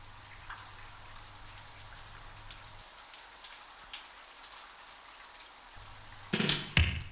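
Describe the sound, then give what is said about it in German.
Rain patters steadily on windows as a dense, even hiss of drops, with a brief louder burst near the end. “Hört sich das gut an oder hört sich das gut an, wenn der Regen so auf die Fenster plätschert?”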